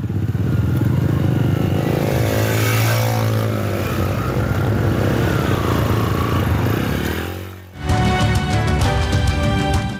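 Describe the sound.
Loud 125cc and 150cc motorcycles ride one after another, their engines holding a steady, buzzing drone. Near the end the sound dips briefly, then a sharper, higher engine tone takes over.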